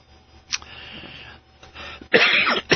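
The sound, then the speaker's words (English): A person coughs: one brief cough, then a louder, harsher bout of coughing, over a low steady hum. “a couple of coughs to give you here. If I can stop coughing.”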